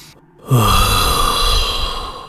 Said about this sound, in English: first I usually take a deep breath.